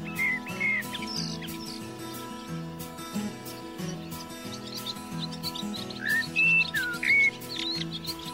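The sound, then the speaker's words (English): Birds chirp in short, bright whistled calls over soft acoustic instrumental music, with a few clustered tweets near the start and another burst of calls toward the end. “Some of the sweetest sounds in nature are made by birds”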